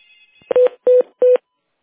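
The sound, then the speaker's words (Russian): Telephone tones sound as a call is transferred: three short, evenly spaced electronic beeps of the same steady pitch, loud and clear, with no talk. “Сейчас я на минуточку переведу вас на специалиста, хорошо?”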